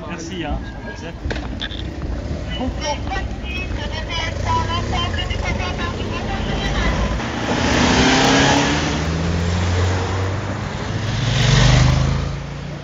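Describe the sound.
A car accelerates away at speed as it carries a minister off to catch his train. Engine surges swell twice, around the middle and again near the end, over a broad rush of road noise, with voices murmuring in the background.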